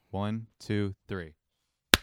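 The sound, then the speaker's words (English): A single sharp hand clap used to sync a call recording. It rings out alone after a few short spoken words. “Let's clap in one more time because you're lagging.”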